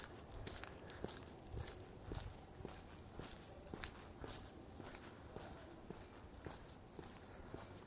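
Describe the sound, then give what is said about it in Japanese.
Footsteps of a person walking along a road: many faint, even steps at a steady pace, roughly two per second, over a soft background hiss. “歩いて歩いております”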